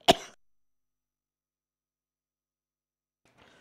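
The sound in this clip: A single short, sharp throat clearing at the very start, followed by near silence.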